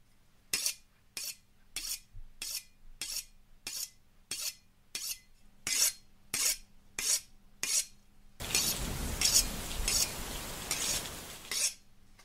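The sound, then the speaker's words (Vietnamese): A butcher's knife is sharpened on a whetstone in steady, evenly spaced scraping strokes. The strokes are crisp and bright, and near the end they give way to a denser, continuous rasping grind. “Ông y mài mài con dao vào cục đá mài nghe đến rợn người.”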